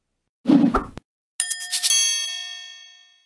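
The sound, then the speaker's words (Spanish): A bright, bell-like ding serves as a censorship tone over a spoken word. It sounds as a few rapid metallic strikes, then rings out and fades slowly, preceded by a brief muffled burst. “¿Por qué cuando dice droga suena un pi? Porque no puedo decir en redes sociales.”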